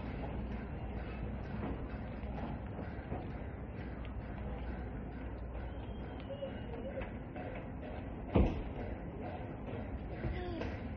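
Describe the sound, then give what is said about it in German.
Steady rumble and clatter of a train bound for Zurich about to depart, a continuous low rail noise with faint rattles and one sharp knock near the end. “Wir müssen ein bisschen pressieren, der Zürichzug fährt in denen ab.”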